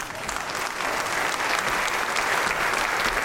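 Live audience applause welcoming a Scottish political guest onto a stage show: dense, steady clapping that holds at an even loudness for the full few seconds, with no voices standing out.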